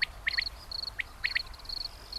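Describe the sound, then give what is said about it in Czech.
High, faint cricket chirps sound in short bursts at irregular intervals, several brief shrill notes standing out over a soft, steady background hiss. “Cvrček.”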